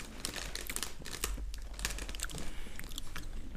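Crunching and chewing of barbecue-flavoured rice crackers, with many crisp bites and crackles in an irregular rhythm. The eating is faint and heard alone, with no talking.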